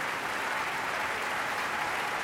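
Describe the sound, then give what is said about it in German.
Dense, steady applause from an opera audience celebrating an Australian composer at the curtain call, a sustained wash of many clapping hands at an even level throughout. “Und er bedankt sich bei allen Beteiligten, wird gefeiert, umjubelt vom Publikum.”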